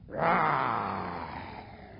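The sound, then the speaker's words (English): A voice imitates a lion's roar: one breathy, rasping roar swells quickly and then slowly fades away. “There's no doubt about it, you know. The lion's roar.”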